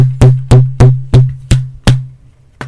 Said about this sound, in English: That was the sound of me hitting the microphone with my DVDs of Ash vs. the Evil Dead